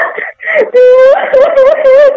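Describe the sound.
A person crying on request, a loud staged wail that begins with breathy sobs and moves into a drawn-out moaning cry with a wavering, sobbing pitch, heard alone.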